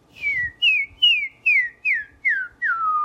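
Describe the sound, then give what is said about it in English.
A person whistles seven short, clear notes in an even rhythm. Each note slides downward in pitch, and the final note sits lower and is held a little longer; no talk. “I like to pretend that my whistle's coming out of that. That really helps me make the sound have a little focal point.”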